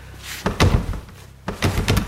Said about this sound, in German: Los, mach die verdammte Tür auf. Ja, ja, ist gut.